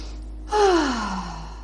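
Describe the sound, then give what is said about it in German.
A deep breath in and out during a guided relaxation exercise: one sustained breath that ends in a soft, audible sigh with a gently falling voiced tone, heard alone. “Und dann atme noch mal tief ein und aus.”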